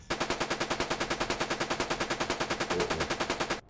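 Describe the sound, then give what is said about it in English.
Rapid automatic gunfire from a machine gun turret in a video game, a loud, steady stream of evenly spaced shots hammering on without pause for the whole stretch. “Machine gun turret is just keep on firing.”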